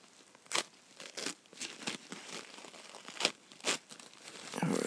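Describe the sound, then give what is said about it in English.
Something is ripped off in a series of rasping tears and crinkles, several sharp bursts at an uneven rhythm, fairly faint, with a longer rough rustle at the end. “You rip them off. I know you like it. I know you like ripping.”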